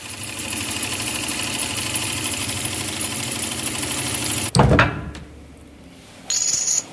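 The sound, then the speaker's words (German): A hand-operated coin minting press with 20 to 30 tonnes of pressing force, at the Berlin state mint. A steady mechanical buzzing drone is cut by a sharp, heavy clunk, then a quieter pause before the buzz resumes. “Selbst diese kleine Maschine hat eine Presskraft zwischen 20 und 30 Tonnen, die per Hand betätigt werden.”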